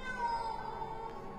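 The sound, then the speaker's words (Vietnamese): Cat screeching: a single drawn-out, tonal yowl that wavers slightly in pitch, fairly faint, with no other sounds around it. “Con mèo rít lên những tiếng ghê rợn”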